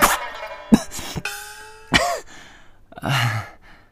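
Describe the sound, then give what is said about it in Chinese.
Violent coughing from someone choking on saliva: a few harsh, abrupt bursts with short breathy gaps, the last one longer and rougher, loud and alone with no talk. “冬至冷不防被口水呛到，剧烈的咳嗽起来”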